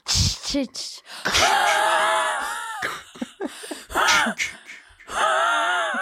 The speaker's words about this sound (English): She has asthma. Leave her alone. I do. Calm down. She has to do that every single time she inhales.